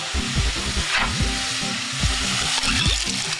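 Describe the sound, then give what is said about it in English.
Meat and onions sizzle as they sauté in a pan for a bean and barley dish, a steady, crackling hiss that continues throughout at moderate volume. “After a few minutes of sauteing the meat and the onions, I'm ready to add my beans.”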